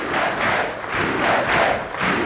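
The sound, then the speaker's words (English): High school students in Hamilton, Ohio cheering for President Bush: a loud, sustained crowd roar of shouts and cheers that swells and dips in waves. “Here, the president was greeted by an audience of students ready to show their support and their patriotism.”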